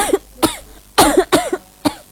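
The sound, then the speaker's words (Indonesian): Coughing from someone who seems unwell: a run of harsh, barking coughs in uneven bursts, some doubled close together, loud and alone without talk. “Kuperhatikan dari tadi lah kok batuk.”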